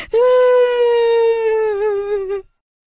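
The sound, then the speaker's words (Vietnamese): A child bursting into tears after scraping a bleeding forehead: one long, loud, sustained wail that slowly falls in pitch and quavers toward the end before cutting off into silence. “Và nó sợ hãi, oà khóc.”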